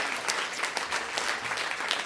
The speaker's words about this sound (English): Can we give the Lord a hand clap of praise? Praise the Lord.